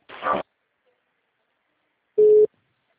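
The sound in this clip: A telephone call-transfer tone sounds once as a steady, mid-pitched beep lasting about a quarter second. It follows a short noisy burst, and silence surrounds both.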